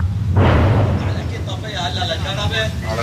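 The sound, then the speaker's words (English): A heavy boom from an Israeli airstrike nearby as a village is entered, a single broad blast rising early and rumbling off, followed by voices talking. “As we enter the village, there are more Israeli airstrikes nearby.”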